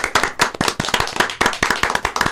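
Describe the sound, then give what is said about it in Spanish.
Hand clapping from a small group celebrating an anniversary, many sharp, distinct claps in a quick, slightly uneven rhythm, each one crisp and loud with brief gaps between. “Un aplauso. Bravo.”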